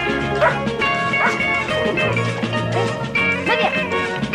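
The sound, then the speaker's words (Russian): A cartoon dog barks and yips as children play with it: a few sharp, bright yaps at an even pace over a steady, tonal background. “Ребята играют с собакой.”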